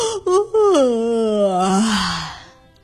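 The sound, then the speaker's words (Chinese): A person imitates a yawn for little ghosts in a children's story: one long, voiced, moaning glide that falls slowly in pitch, loud and alone, trailing off into a breathy fade. “可是很快，三个小幽灵开始打起了哈欠”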